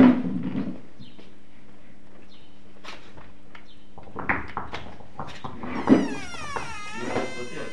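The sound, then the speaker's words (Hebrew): A window being closed because of the wind: a low steady hum at first, then a few knocking clunks and a thud, followed by a squeaking, scraping slide that wavers up and down in pitch. “זה בסדר שאני סוגר את החלון, יש רוח מציף.”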